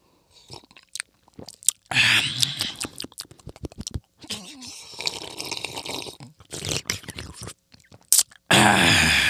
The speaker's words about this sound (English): Mouth is always going to sound wet, but then again, I'm always drinking tea.